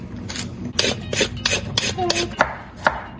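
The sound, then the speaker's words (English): A carrot being peeled, heard as a series of rough, rasping scrapes in quick, irregular strokes, some sharper and louder than others, with no voices. “While you do that, I'm going to peel the carrot,”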